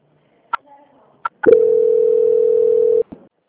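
Steady single-pitched telephone line tone during a call transfer, sounding for about a second and a half after a few sharp clicks, then cutting off abruptly with a brief click.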